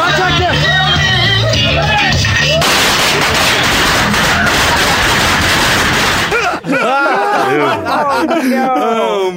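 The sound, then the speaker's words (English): A massive explosion set off in a studio about the size of a kitchen gives a loud, roaring burst of broad noise lasting about four seconds, with people talking before and after. “massive explosion. Massive, huge. In a room the size of your kitchen, listeners, okay?”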